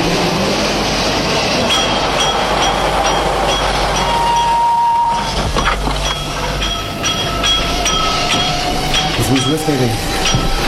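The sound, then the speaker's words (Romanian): An express train from Milan arrives at platform 1 of a station. A steady, loud rolling rumble carries scattered metallic clinks and a few sustained tones, with faint voices underneath. “Atențiune, atențiune! Rapidul de la Milano sosește pe linia 1.”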